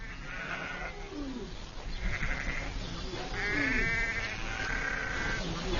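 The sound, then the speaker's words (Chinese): Bleating of a ewe in pain while giving birth to a lamb: a few strained, drawn-out cries rise over a steady, rough background noise, growing a little louder toward the end. “分娩中的母羊非常痛苦，”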